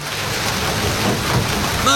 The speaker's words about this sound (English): March! The rains are here! When it finally rains, it pours.